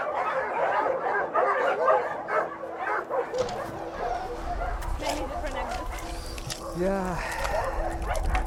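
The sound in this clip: Dogs bark in caged kennels at an animal shelter, a dense, overlapping chorus of barks, yips and whimpers that continues throughout at a fairly even loudness.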